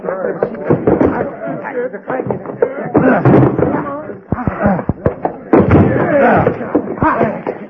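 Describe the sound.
A locked door being forced open, with repeated heavy thuds and bangs against it while people talk urgently over the blows.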